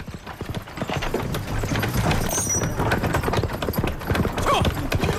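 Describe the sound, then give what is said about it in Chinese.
A horse pulls a cart, its hooves clip-clopping in a steady, brisk rhythm of many hard strikes that runs throughout at a fairly loud level. “铁牛妻打开院门，见到自己的丈夫驾着马车的样子”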